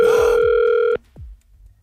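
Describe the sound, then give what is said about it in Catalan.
A telephone line ringing after a call is dialed: one long, steady electronic tone that cuts off abruptly partway through, followed by a brief click and near quiet. “Sí, marca el telèfon de l'Eulàlia.”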